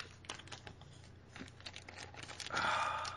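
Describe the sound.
Tape being peeled off a page of original comic art, a quiet run of small crackling, tearing ticks that swells into a louder, longer rip toward the end.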